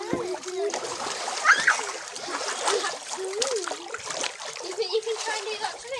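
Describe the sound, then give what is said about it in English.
Children splash water in a new paddling pool, with continuous splashing, sloshing and trickling mixed with high children's voices throughout. “My brother and sister though like to play in the new paddling pool.”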